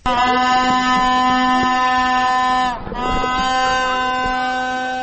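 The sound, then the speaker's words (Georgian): Horns blown by protesters outside a government chancellery building blare in one loud, sustained, buzzing drone rich in overtones, wavering briefly partway through before holding steady again. “ასე საყვირებითა და ხმაურით ცდილობდნენ აქციის მონაწილეები კანცელარიის შენობაში მყოფი მთავრობის ადმინისტრაციის წევრებისათვის ხმის მიწვდენას.”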